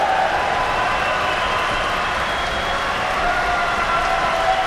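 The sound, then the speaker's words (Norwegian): Standing ovation in an opera hall after a Macbeth performance, with dense, sustained clapping and crowd noise holding at an even level throughout. “Som her til aften har gjort sin debut i partiet som Lady Macbeth, og der er stående applaus inde i salen.”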